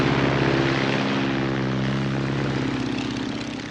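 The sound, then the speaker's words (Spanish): A biplane taking off: the loud, steady propeller-engine drone holds a buzzing hum throughout and eases slightly in level toward the end, with no voices. “Al día siguiente, el biplano de Dennis despega.”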